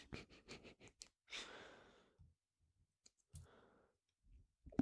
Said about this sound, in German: Klickst einfach irgendwas an.